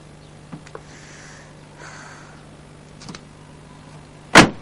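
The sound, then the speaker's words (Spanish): A car door slams shut once near the end, a single loud, sharp thump after a few faint clicks over a low steady hum. “Ella cierra la puerta del coche, él entra en casa.”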